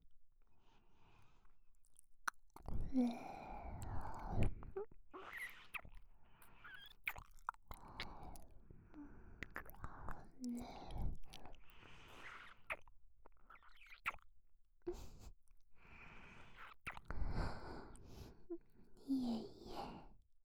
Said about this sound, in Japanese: 本格的に、お耳とのベロチェも始めさせていただきますね。